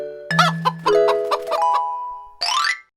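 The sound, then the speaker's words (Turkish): Chicken clucking: a quick run of short, throaty clucks followed by a higher squawk at the end, loud and clear with no voices. “Tavuk.”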